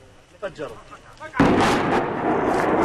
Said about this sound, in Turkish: Patlayıcı yerleştirilen ev saniyeler içinde yıkıldı.